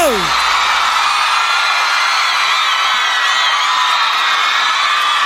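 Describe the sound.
An audience cheers and whoops loudly in a dense, unbroken roar of voices. Shrill shouts and yells rise above the crowd throughout, with no gaps.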